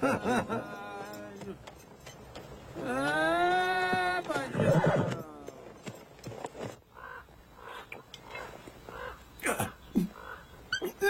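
A horse whinnies in a long, loud neigh whose harmonic pitch wavers up and down, set among other shorter sounds before and after.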